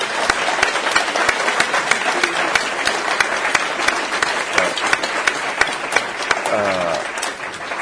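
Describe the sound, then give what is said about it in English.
An audience claps steadily to thank Mr. Klitschko after his appearance at a policy discussion. The applause is dense and even throughout, with a voice briefly audible near the end. “let me ask the audience to join me in thanking Mr. Klitschko for his appearance today.”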